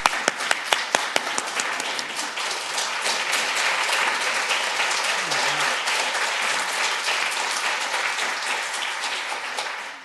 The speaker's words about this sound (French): puisqu'il n'y a pas eu d'ovation debout encore, on va donner une ovation debout avant que Guy présente